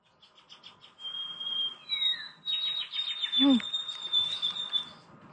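Birds sing in a backyard in the morning: high, thin chirps and whistles, quick repeated trills and one downward-slurred note, faint to moderate and layered over a quiet background.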